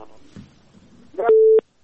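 A telephone line tone follows a dropped call. Brief crackles and clicks lead into a loud, steady, mid-pitched beep that cuts off abruptly.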